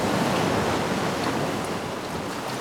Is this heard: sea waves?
yes